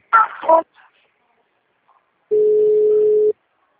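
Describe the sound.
A steady, mid-pitched telephone line tone lasting about a second plays during a call transfer. Before it comes a brief burst of sound, then near silence.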